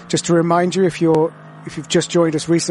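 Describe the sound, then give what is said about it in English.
Onboard engine of the Windward Racing Team Verstappen Mercedes-AMG GT3 race car, a steady, low engine drone running beneath a commentator's continuous talk. “And the sound you can hear now is on board with Lucas Auer in the Mercedes-AMG GT3, the Windward Racing Team Verstappen racing car,”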